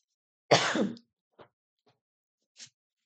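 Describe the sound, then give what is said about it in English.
A person coughs once, a single harsh, forceful burst followed by a few faint, short breathy traces, with silence around them. “Not me coughing on a podcast.”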